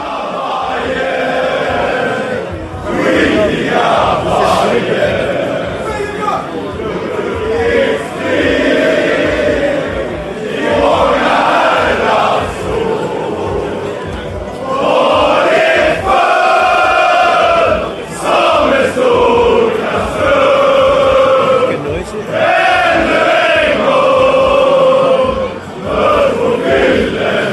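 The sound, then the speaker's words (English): A crowd of football fans fills a pub with loud, continuous noise. Chanting and singing voices swell and fall in waves, and the voices overlap without pause. “Well, that was the sound of us in the pub, the bar, before we have now made it to the Tele2 Arena.”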